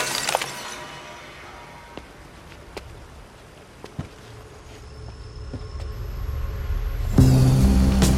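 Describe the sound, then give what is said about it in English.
A glass bottle smashes on a rock by a reservoir: a brief, sharp shattering burst near the start, then low background noise with a few faint ticks that swells louder toward the end. “As Jonah climbs down, the bottle smashes on a rock.”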